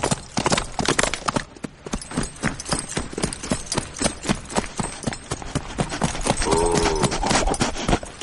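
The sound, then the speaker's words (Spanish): Hooves of a ridden horse galloping through trees beat out a fast, steady clip-clop, with many sharp hoofbeats repeating evenly and loudly throughout. “Mira hacia atrás alertado y continúa su camino cabalgando entre los árboles.”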